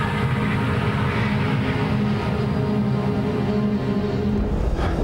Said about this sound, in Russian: Самолет снова трясет. В кабине капитан Брайан Энгл. Ну, держись. Входим. Самолет входит в слой облаков.